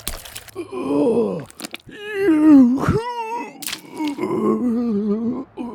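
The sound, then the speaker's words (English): A man squatting beside a car grunts and groans with drawn-out, strained vocal effort over several seconds, broken by a few short, sputtering bursts of unpleasant squirts. “Through the open passenger window, we hear him grunting, along with some unpleasant squirts.”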